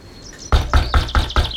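Knocking on a door: six sharp, loud knocks in a quick, evenly spaced rhythm, preceded by a faint, thin, high tone.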